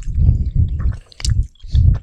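Close, wet chewing of chewy strawberry fruit-snack candies in a few steady bursts of mastication with brief pauses between them. A small sticky click sits in the middle. No voices.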